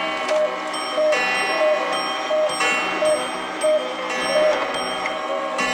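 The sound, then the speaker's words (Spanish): Several clocks ring eight o'clock together: a dense layer of bright, sustained bell-like tones with regular strikes pulsing through it at an even, steady rhythm. “¿Son mis relojes lo que oigo? Sí, son las 8.”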